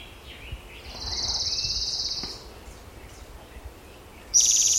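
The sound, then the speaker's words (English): Orange-crowned warbler song: a high, even trill held for about a second and a half over a faint background hiss, followed near the end by another high, buzzy burst. “Orange Crown Warbler also singing.”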